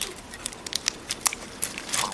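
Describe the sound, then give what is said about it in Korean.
Crackling and cracking as the shells of dried, insect-eaten chestnuts are peeled on a winter day: many small, sharp, irregular snaps and crinkles, quiet and unhurried, with no talk. “그녀와 남편은 겨울의 여느 날처럼 벌레 먹어 말려놓은 밤 껍질을 벗긴다.”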